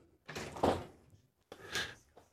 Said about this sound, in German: jetzt geht hier gleich die Tür auf